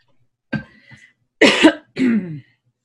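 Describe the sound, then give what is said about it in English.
A person coughs and clears their throat after taking a drink: three loud, raspy bursts with a short pause between each, the last two longer and harsher, with no talk over them. “Sorry about that. We are trying to clear this throat.”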